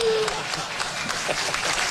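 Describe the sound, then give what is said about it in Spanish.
Crowd applause follows a request for a lifetime contract for coach Gustavo Alfaro at an event presenting Paraguay's World Cup squad. Steady, moderately loud clapping from many people holds throughout, with a brief tone at the start. “Ahí está el pedido, que termina en abrazo y aplauso.”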